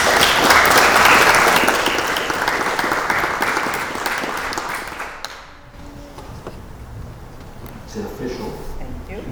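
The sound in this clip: A Christian Baptist Church audience claps to welcome new members after a prayer. The dense applause is loud at first, fades after about five seconds, and then gives way to talk.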